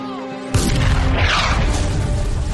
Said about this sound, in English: So they're getting shot at. That was close.